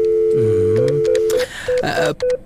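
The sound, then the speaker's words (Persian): A telephone call is dialled to a secretary's desk: a steady tone, then a series of short, evenly pitched beeps with brief gaps between them, loud and with no talk. “به میز سکرتر یک زنگ بزنم، امی امروز خوب وقتش است.”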